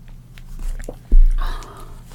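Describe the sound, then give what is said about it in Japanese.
Drinking sounds as someone sips a drink, a few soft mouth noises and a sharper, louder gulp, brief and with no talk. “はい。飲んでいきます。”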